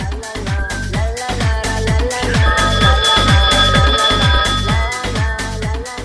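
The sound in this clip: A telephone rings for an incoming call to a radio show: loud, rapid, evenly spaced ringing pulses that repeat steadily for the full length, with sustained bright tones sounding over the pulses and no voices.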